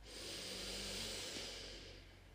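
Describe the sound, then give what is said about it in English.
A slow breath, heard as a long, soft, airy hiss that swells and holds steadily for about two seconds with no talking. “Taking another breath in and out here, a slow breath in”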